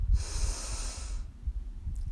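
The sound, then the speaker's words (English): A single soft inhale through the nose during a guided deep-breathing exercise, an airy hiss lasting about a second before fading into quiet. “We'll breathe in through our nose and exhale with a loud sigh through our mouth. So breathe in”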